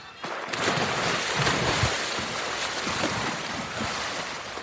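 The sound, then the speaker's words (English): Hands paddling in water beside a small raft that splashes up and down, a steady wash of water with irregular soft splashes and no voices. “as soon as they cut to the water, it's just silent with just the sound of like hands paddling in the water, of little raft like kind of splashing up and down”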